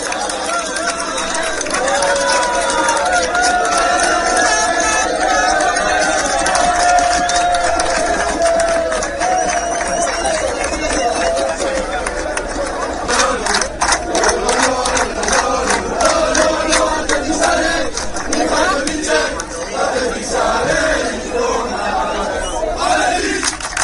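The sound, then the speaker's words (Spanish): Hundreds of Athletic Bilbao supporters gather at Lezama, the club's headquarters, to see off the team, creating loud, continuous crowd babble, chatter and scattered cheers that swell and carry on throughout. “una ilusión compartida por cientos de aficionados rojiblancos que se han acercado hasta Lezama para despedir a los suyos. Este era el sonido, este era el ambiente que se vivía en el cuartel general del Athletic.”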